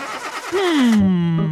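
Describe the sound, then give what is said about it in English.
A flooded car engine cranks without catching: a rough, sputtering churn, then a loud droning tone that sinks steadily in pitch and holds low to the end, with no voices. “This isn't going to work if your car won't start”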